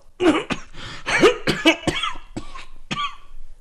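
Violent coughing comes in a fit of many harsh, rasping coughs, uneven in spacing and loudness, with some breathy, throaty sounds between the bursts.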